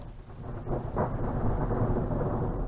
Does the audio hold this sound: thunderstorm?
yes